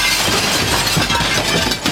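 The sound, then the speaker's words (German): A window pane of 4 mm standard glass is smashed in, giving a loud, dense, bright crash of breaking glass that fills the whole moment with continuous shattering and clinking noise. “Na dann schlag ich die Scheibe doch einfach ein.”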